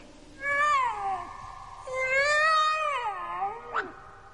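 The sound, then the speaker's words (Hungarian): A tomcat meows twice, each call long and wavering, the second stretched out and falling in pitch, then gives a brief, quick chirp at the end. The calls are loud and clear and stand alone without talk. “Kedves Kandúr, merre van a gazdád?”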